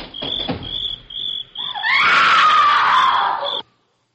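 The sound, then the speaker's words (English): A woman's scream, a shrill, sustained wail lasting under two seconds that cuts off abruptly, over steady, pulsing cricket chirps that are heard alone before it begins. “listen. Sounds like a woman screaming.”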